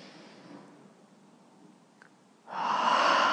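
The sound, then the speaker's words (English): A deep breath drawn in during a guided breathing exercise: a quiet, faintly hissing start, then one loud, breathy rush of air that begins partway through and carries on to the end. “Take a deep breath.”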